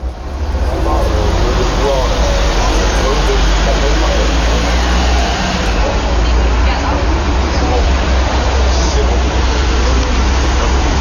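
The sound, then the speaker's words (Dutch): Traffic passes a café terrace in France in a steady, loud wash of noise with a deep low rumble underneath and a murmur of voices mixed in. “Dit is het geluid van een Frans terras.”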